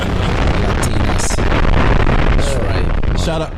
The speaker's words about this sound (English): That little dumbass humble bomb you just dropped.